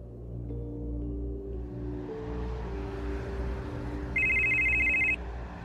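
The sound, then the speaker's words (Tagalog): A telephone rings during a call made from a car. A single bright electronic trill lasts about a second, rising clearly above a steady low drone of sustained background tones. “Agad akong tumawag kay Say para hindi mapurnada ang plano ko.”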